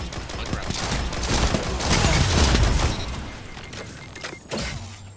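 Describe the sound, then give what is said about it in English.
Rapid machine gun fire in Destiny 2, a dense, loud burst of overlapping shots that swells through the first three seconds, eases off, then flares again briefly near the end. “Oh shoot, ah, oh, there's a machine gun. I ran right into that. Machine gun.”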